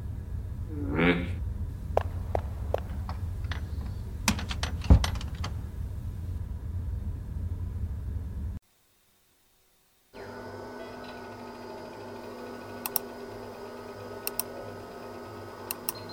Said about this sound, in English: You type like you have gavels for fingers.